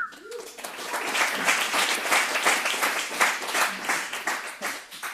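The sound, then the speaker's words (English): Audience applause from a large group at a talk on addiction recovery: dense, steady clapping that holds at an even, fairly loud level for about five seconds. “a round of applause for doing exactly what I'm supposed to do, which is not drugs and alcohol.”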